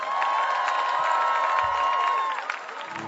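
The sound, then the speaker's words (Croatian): Audience cheering and applause at a live concert, a loud, continuous roar of clapping and shouts with a sustained high whistle-like tone, easing slightly near the end. “Da čujem veliki aplauz za Airi FM!”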